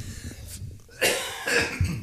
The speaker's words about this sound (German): Ja, es wird immer schlimmer mit deinen Husten. Genau, ich huste